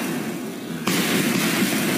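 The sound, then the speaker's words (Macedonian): Fireworks and smoke bombs go off at a street celebration with flares and hundreds of supporters: one sudden loud bang, then continuous dense, crackling noise that stays loud. “Со факели, димни бомби, огномет и стотици поддржувачи, поранешниот прв вице-премиер Артан Груби”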